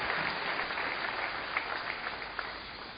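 A church audience applauds with steady, dense clapping that holds at an even level throughout, with no talk over it.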